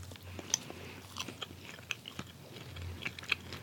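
Chewing of soy-based vegetarian meatballs: many quiet, soft crunching bites and mouth clicks in an irregular rhythm, with no talking.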